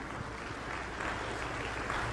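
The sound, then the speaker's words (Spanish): Applause from a Catholic church audience at a Friday gathering: dense, steady clapping that fills the whole moment with an even roar and no clear pauses. “Merecen un aplauso ustedes, hermanos.”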